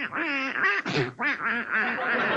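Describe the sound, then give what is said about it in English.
Duck quacking in a rapid, loud, continuous series of nasal, buzzy calls with only brief dips between them. “Come on, you silly-looking duck. Out, out.”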